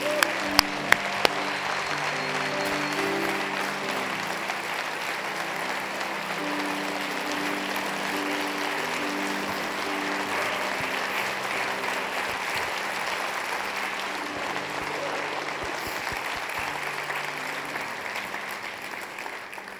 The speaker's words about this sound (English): So if you would, put your hands together and welcome Charles Graham.